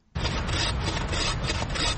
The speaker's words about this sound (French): Une scie à la main, les bûcherons s'activent dans un épais taillis de black wattle, un acacia originaire d'Australie, importé en Afrique du Sud.